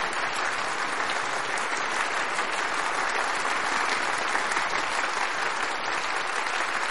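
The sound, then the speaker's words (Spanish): Applause from a group of people at a gathering, a dense and steady wash of clapping that holds evenly for the full length with no voices on top. “Todos aplauden menos Eunice y Carter.”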